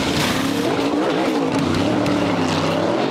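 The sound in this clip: NASCAR race cars race on a track, a loud, unbroken roar of engines with tire squeal woven through it.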